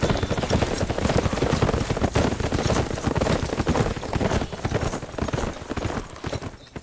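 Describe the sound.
Hooves of horses clip-clopping as riders set off together. The hoofbeats come dense, loud and steady throughout, with no voices.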